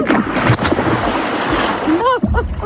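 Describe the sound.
Water splashes and rushes on a river in the Périgord, a broad noisy wash that holds for about two seconds before a voice speaks briefly at the end.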